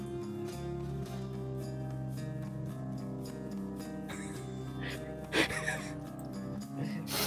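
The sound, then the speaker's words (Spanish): Faint crying, with breathy gasps and whimpering sobs over a steady tonal background, one stronger sobbing burst standing out near the end. “No da igual. Lloraré hasta que me des la razón. Lo veo llorar.”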